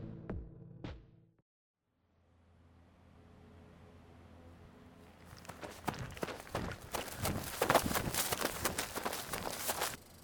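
Running footsteps, a rapid, steady patter of impacts that starts after a few seconds of near quiet and carries on to the end, following a couple of brief soft knocks at the very start.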